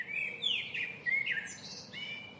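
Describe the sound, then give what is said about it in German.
Birds chirping outdoors in a village, bright high tweets and quick short trills in close succession, fairly faint over a soft steady background hiss. “Die Vögel zwitschern”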